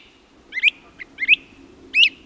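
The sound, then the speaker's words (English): Bird calls in the New Jersey Pine Barrens, from prairie warblers atop young pines and great crested flycatchers overhead: three loud, clear, rising high chirped calls spaced apart, with a faint brief note between the first two, over a quiet background. “Bright yellow prairie warblers trill atop young pines. Great crested flycatchers call out overhead.”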